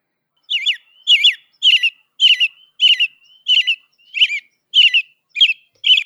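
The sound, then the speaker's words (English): A robin singing its cheery, repeated song: about ten short, high, warbling phrases in a steady rhythm, each a quick run of bright notes. The phrases are clear and fairly loud, separated by brief pauses, with no other sounds. “let's see if a professional robin does a better job than me.”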